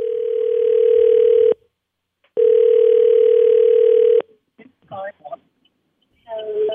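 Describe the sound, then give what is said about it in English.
A telephone rings out on an outgoing call for a grand prize draw, two long, steady tones separated by a short silent gap. A few brief snatches of talk follow. “Okay, dial it up. Dial it up. Let's go.”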